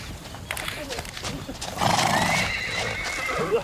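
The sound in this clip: Horses neigh and their hooves clip-clop as riders dismount, with people shouting among them and a louder whinny rising partway through.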